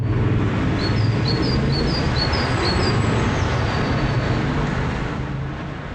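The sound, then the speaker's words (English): A great tit, a small songbird, sings a run of quick, high repeated two-note phrases early on. The song is faint beneath a loud, steady, low rumble that continues throughout. “So what you're hearing there is the bird song of a great tit. That's a small bird closely related to our chickadees here in Ontario.”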